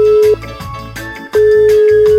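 Ringback tone on an outgoing telephone call: a steady mid-pitched tone that breaks off for about a second and then resumes, heard over background music.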